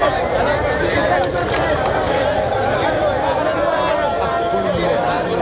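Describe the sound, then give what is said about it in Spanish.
Loud crowd hubbub from thousands of migrants leaving Trampolín beach in Ceuta, a dense, steady wash of overlapping voices and movement that holds without a break throughout. “Este era el sonido de ese éxodo de miles de personas desde la playa del Trampolín.”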